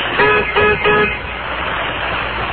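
Three short, loud car horn honks at a traffic light, evenly spaced in quick succession, followed by a steady wash of road traffic noise.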